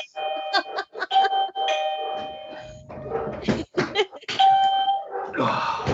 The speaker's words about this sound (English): That's the doorbell.